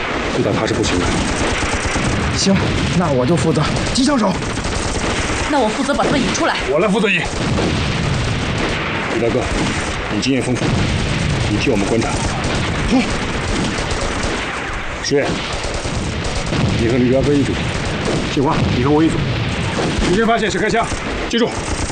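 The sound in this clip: Machine gun fire in a wartime battle scene, dense and continuous, with rapid bursts and heavy booms blending into loud unbroken noise, and voices at times.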